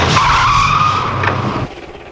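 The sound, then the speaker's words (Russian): A large black car rolls up to an entrance, its tires squealing in a loud, sustained skid with a droning engine tone that cuts off abruptly near the end. “К подъезду подкатила большая черная машина.”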